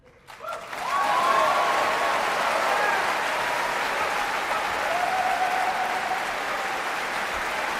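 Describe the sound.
After a cello concerto performed by a cellist-vocalist with the BBC Philharmonic Orchestra, concert applause breaks out. It swells quickly within the first second into loud, dense clapping that holds steady to the end.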